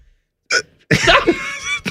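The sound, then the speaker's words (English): A person hiccups uncontrollably after eating super spicy peppers. A few sharp, breathy bursts are split by short gaps, and the middle burst is longer and rougher, with no talking in between. “Uncontrollable hiccups now”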